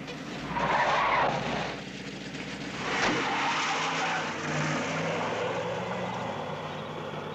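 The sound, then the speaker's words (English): Tires screech and an engine roars as a car speeds away down a dark, deserted road, a loud sustained skid that eases slightly, then holds for several seconds with no voices. “Velma and Jean are shoved from the car and watch, still holding burgers, as the car speeds away down the dark, deserted road.”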